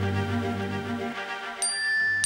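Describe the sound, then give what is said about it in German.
A message-alert chime in a German radio drama: two bright, high dings ring out over a sustained tonal background. “Sie haben eine neue Nachricht.”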